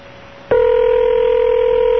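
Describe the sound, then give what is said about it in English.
A telephone ring tone on a call to a house before an answering machine picks up. It cuts in abruptly after a brief low hum and holds one steady, even pitch to the end. “No, now it's going to click through to the machine again. See? Four rings.”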